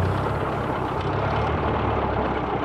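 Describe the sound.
A car engine runs steadily as the vehicle drives off. The rumble is dense and constant with hiss on top, stays at an even loudness throughout, and has no voices.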